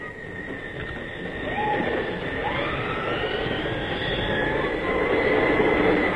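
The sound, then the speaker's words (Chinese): An express train bound for Vienna, service number 21, pulls in to a station platform with a steady, broad rumble and a thin high tonal whine that swells slightly in loudness over time. “注意，开往维也纳的快车到了。 注意注意，21次要进站了。”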